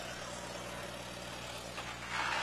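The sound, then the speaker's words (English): A McCormick Farmall H tractor with a wide front end runs with a steady, continuous engine drone, growing slightly louder at the end. “Yep, it is a Farmall, but I can't see the numbers, and it's not registered.”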